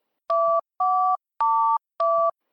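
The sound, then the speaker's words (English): A telephone voicemail system gives four loud electronic two-tone beeps. Each lasts about a third of a second, with short even gaps between them and no voices. “You've reached the voicemail box of Gary from RND. Please leave a message after the tone.”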